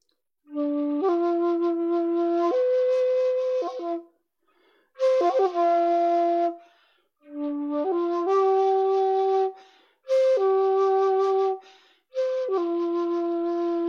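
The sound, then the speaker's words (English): A beginner plays breathy tones on a shakuhachi flute in five separate phrases with short gaps between them. Each phrase holds steady, airy notes that step between a few pitches. “And as you can tell, I'm still not really very good at making noise out of the shakuhachi because of the way you have to.”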